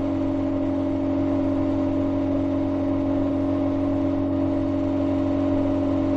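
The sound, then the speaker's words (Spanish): Steady engine drone of a white car travelling along a narrow two-way Castilian country road through flat autumn farmland, a constant low hum and whir with no change in pace. “El coche blanco recorre un camino entre verdes árboles y matorrales.”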